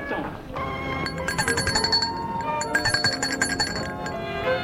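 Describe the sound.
A doorbell rings at a gate, several bright chiming tones cutting through a busy, clattering background of party noise.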